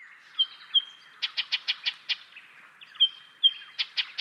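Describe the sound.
Alarm chattering from an agitated Eastern Yellow Robin: rapid runs of harsh, clipped notes mixed with short thin whistled tones, repeated in two bursts, moderately loud and alone.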